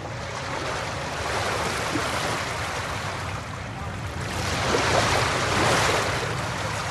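Sea waves wash steadily as a boat sails away across open water, with wind noise over a broad rushing roar that swells toward the end. No voices are heard.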